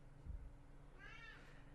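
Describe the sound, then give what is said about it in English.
A cat gives one short, faint meow in the background, its pitch rising and then falling. Low, quiet room noise surrounds it, and no one speaks. “So if you hear our cat Stanley meowing in the background, just consider that a bonus for this episode. He's feeling very talkative today.”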